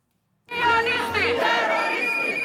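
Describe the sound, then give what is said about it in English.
A crowd of protesters marching through the streets of Ljubljana against the opening of Israel's embassy in Slovenia erupts into loud shouting and chanting after a brief silence. The roar of many voices holds steady to the end. “Protesters marched through the streets of Ljubljana as Israel's Foreign Minister Gideon Saar arrived for the opening of Israel's first embassy in Slovenia.”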